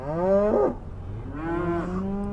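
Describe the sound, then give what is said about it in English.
Hungry cattle bellow at a feedlot on a frigid morning: two long, loud moos, the first breaking off abruptly and the second lower in pitch and steadier. “At Kenobi's feedlot, hungry cattle snort and bellow, steam rising from dripping nostrils in the frigid morning air.”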